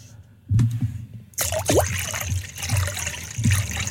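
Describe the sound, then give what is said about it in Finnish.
Liquid pours into a glass, the second of two drinks being poured for comparison: a splashy trickle that starts abruptly and runs on steadily, with faint low voices underneath. “Ja sitten sit mä kaadan tätä tokaa.”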